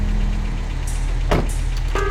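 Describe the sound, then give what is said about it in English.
A truck engine running in a video game, in a scene on a skyscraper rooftop: a loud, steady, low rumbling drone broken by a couple of brief, sharp electronic tones near the end. “Drive the truck straight off the edge of the skyscraper.”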